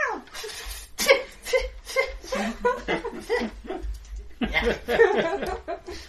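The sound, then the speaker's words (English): A person imitates a cat hacking up a fur ball with a rapid run of rough, noisy retching and hacking bursts. Loud and irregular throughout. “Hacks up a fur ball. Like a cat eating marmite.”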